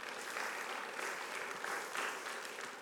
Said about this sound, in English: Can we give God just a hand clap of praise